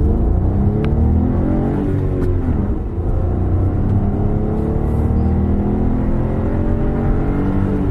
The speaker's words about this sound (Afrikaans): Sy 3-silinder 1-liter turbo petrol is 'n juweel, sterk en suiwig.